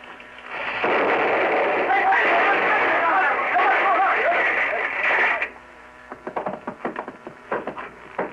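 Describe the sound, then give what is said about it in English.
A muzzle-loaded gun, rammed with powder and shot, is fired out a window and explodes in a long roaring blast lasting several seconds. It cuts off suddenly, followed by scattered knocks and voices. “I'm using now what is called a ramrod. Uh-huh. Ramming the powder and shot in. Just a second. There. Now it's ready. They must use watchmaker's tools, microscopic precision. I'll fire it out the window.”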